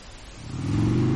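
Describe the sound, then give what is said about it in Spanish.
The engine of an animated green motorbike gives a low, buzzy rumble that swells in loudness over the first half second and then holds steady. “Una moto verde dibujada se detiene en el centro de la pantalla.”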